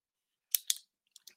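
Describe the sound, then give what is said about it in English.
Pen clicking: two sharp clicks in quick succession, followed a moment later by two fainter clicks, with no talk. “Click pen is out.”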